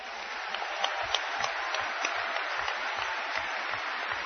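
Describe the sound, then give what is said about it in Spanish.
Audience applause at a talk and book presentation, a dense sustained wash of clapping with a steady pulse of low, regular thumps running through it, with no speech. “Ojalá que él pudiera escuchar este aplauso.”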